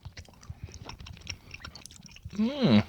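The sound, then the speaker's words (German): Someone chews an apple-juice-flavoured sweet, making soft, irregular wet clicks and squishes at a low level, then a brief louder voiced sound at the end. “Vielleicht muss man mehr drauf rumkauen. Also als Apfelsaft würde ich den zurückgeben.”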